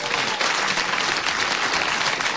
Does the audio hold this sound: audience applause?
yes